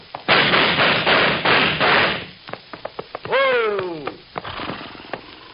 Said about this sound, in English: Sound a little like shots to me.